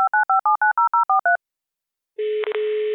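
Telephone touch-tone dialing to call in a guest: nine quick keypad beeps in an even rhythm, a short silence, then a steady continuous line tone broken by two brief dips.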